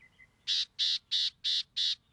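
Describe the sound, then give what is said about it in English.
Five harsh, buzzy calls from a California gnatcatcher, a rare bird of coastal scrubland in Baja California. The calls are evenly spaced, fairly high-pitched and loud against a quiet background. “California gnatcatchers look and sound much the same. But these rare birds prefer the coastal scrublands of Baja California.”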